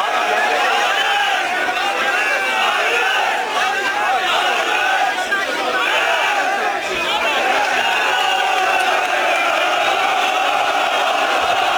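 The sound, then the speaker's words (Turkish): Fenerbahçe football fans crowd an airport to greet their new signing Mason Greenwood. Their voices blend into a steady, loud mass of chanting and shouting that runs unbroken throughout. “Tezahüratlar yapan taraftarlar havalimanında izdiham oluşturdu.”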